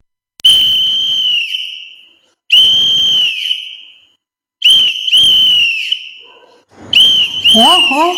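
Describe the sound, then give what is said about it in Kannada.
Shrill blasts from a toy whistle that children brought home from an exhibition stall come in a few long, loud bursts with short gaps, each holding a steady high pitch that sags slightly as it ends. “ಏನಿದು ಗಲಾಟೆ? ಸೀಟಿ ಊದೋರ್ ಯಾರದು? ಎಲ್ಲಿಂದ ತಂದ್ರಿ ಅದನ್ನ?”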